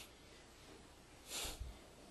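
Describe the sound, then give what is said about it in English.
A single sharp breath of air pushed through the nose during an abdominal breathing demonstration rises briefly out of a faint steady hiss, then fades. “From here, abdominal breath. So, do it like this.”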